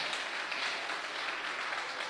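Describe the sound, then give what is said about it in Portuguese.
Hands clapping from a church audience, a faint but steady, dense wash of applause with no distinct single claps, continuing evenly throughout. “Bate palma para Jesus, igreja. Bate palma para Jesus, ô glória. Maravilha, glória a Deus. Pode bater mais forte as palmas para Jesus.”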